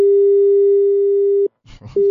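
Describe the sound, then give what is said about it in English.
A telephone busy signal sounds after a caller's line drops: a steady single-pitch tone holds for about a second and a half, breaks off for a short burst of garbled noise, then resumes. “Did we just lose our caller? Maybe if we can try getting back on the line.”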